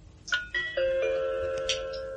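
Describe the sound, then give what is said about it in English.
Radio time-signal gong: a few bright metallic chime strokes struck in quick succession, each ringing on and overlapping the next in a sustained, layered tone. “7:42 exactly by the gong.”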